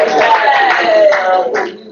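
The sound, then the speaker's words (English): A church audience claps as an offering to Jesus, with the clapping blended into sustained, tonal voices that hold and slowly slide lower before the sound thins out near the end. “Give Jesus a big clap offering. Hallelujah. Hallelujah.”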